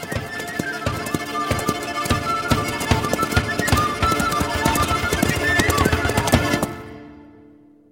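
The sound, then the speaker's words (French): Galloping horse hooves on a ride away from Paris: rapid, rhythmic, loud hoofbeats pound steadily for about seven seconds, then cut off abruptly. “tandis que je galope loin de Paris, loin d'Isabelle et de la bonne fortune.”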